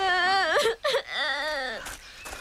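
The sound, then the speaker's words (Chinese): A child cries in high, wavering wails broken by sobbing catches, the pitch bending up and down through a few drawn-out moans. “好了好了，不哭不哭了啊！”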